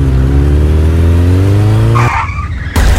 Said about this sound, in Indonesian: kok kamu bawa motornya gak bener sih? Jatuh kan?